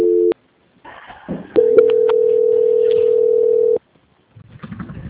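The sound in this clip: A telephone line tone sounds during a call transfer after an invalid extension: a brief tone at the very start, then a long, loud, steady mid-pitched tone of about two seconds with a few clicks over it, followed by quieter sounds.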